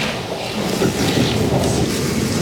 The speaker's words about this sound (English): Thank God for the rain.